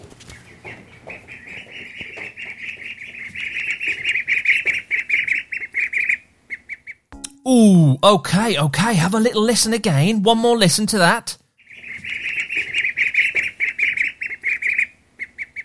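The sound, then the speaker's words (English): Many ducklings cheep in a continuous high, rapid chatter. A person talks briefly in the middle, then the cheeping resumes at the same steady level. “That was the sound of ducklings.”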